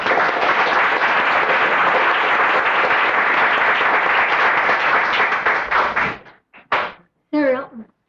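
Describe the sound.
Applause fills a Senate chamber in Juneau as visitors are welcomed: dense, steady clapping for about six seconds that then stops abruptly, followed by a few short knocks and a brief voice.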